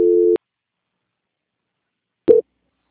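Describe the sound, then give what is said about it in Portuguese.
Two short telephone tones sound during a call transfer: a steady buzzing beep, then a briefer one after about two seconds of silence. “Eu vou transferir a ligação para a auditoria. Por gentileza, o senhor não desliga”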